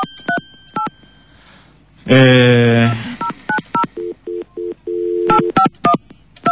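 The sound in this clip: Telephone keypad dialing tones: many short, clean electronic beeps at varying pitches in an irregular sequence, with a brief loud voice-like burst in the middle and a longer held tone near the end.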